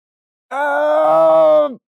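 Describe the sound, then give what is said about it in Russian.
A gnome cries out as it falls from above: a single drawn-out voiced wail lasting just over a second. Its pitch holds steady, then drops at the end as it cuts off. “Сверху раздался быстро приближающийся крик, и на соседнюю платформу рухнул гном.”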